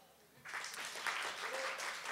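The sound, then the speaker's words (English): Congregation clapping during a church service as communion begins, starting from near quiet and swelling after half a second into soft, steady applause that carries on to the end. “You can clap. You can clap for him.”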